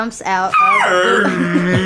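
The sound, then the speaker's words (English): A voice imitates a group of dogs, a basset hound, a beagle and a chihuahua, growling from a bush. A low, rough growl slides up into a whining, yelping cry, loud and alone for under two seconds. “you hear a little bit of a growl, but it's not too scary.”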